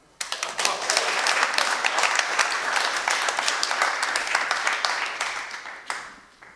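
An audience claps, starting sharply, with dense, overlapping hand claps that hold steady and then thin out and fade near the end.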